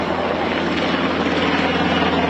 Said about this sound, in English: That's the sound of a chopper flying over Mandeville Canyon